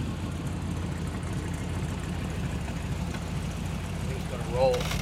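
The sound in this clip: A car engine idling after starting up, heard as a steady, even, low rumble that holds for the whole stretch.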